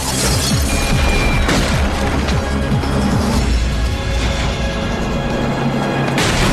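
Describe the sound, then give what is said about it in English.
Heavy smashing and crashing as walls are pulverized in an action chase through apartments. Loud impacts and booming rumble pile on one another continuously, with no pause between them. “then begins to pulverize several walls in his bid to make good his escape.”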